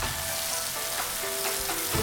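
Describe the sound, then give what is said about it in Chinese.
Loud, steady sizzling of fish mint stir-fried with bean paste and spices over high heat in a wok, cooked for a spicy chicken dish. Dense, continuous frying hiss throughout, with no talking. “豆瓣酱和香料充分炒香，撒一大把折耳根，大火炒断生。”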